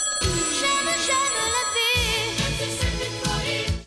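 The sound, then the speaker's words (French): A phone ringtone announcing an incoming call: a bright, melodic electronic tune of repeating notes, steady and loud, heard alone until it cuts off at the end. “Ah, on reçoit un appel.”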